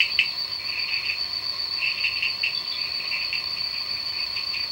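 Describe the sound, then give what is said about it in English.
A loud rainforest insect chorus keeps up a continuous shrill, high-pitched buzz. Pulsing cricket-like trills swell and fade within it, and no voices are heard. “So I'm not sure if you've ever been to a rainforest, but if you do have the fortune to go there, it's incredibly loud.”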